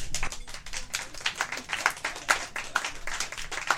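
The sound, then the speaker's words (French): Audience applause at a live show: a dense, steady patter of many hands clapping throughout, fairly even in loudness with small swells, and no voices on top. “Bon, pas parce que vous applaudissez plus longtemps que vous avez l'air plus nombreux, hein?”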